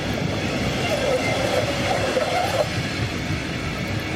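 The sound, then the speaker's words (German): A train in Munich hauled by a class 114 (Baureihe 114) locomotive rumbles past with a steady, dense roar. A faint wavering wheel squeal rises and falls through the middle. “Wagensammelsorium. Mit einer nicht mehr ganz so verbreiteten Lok.”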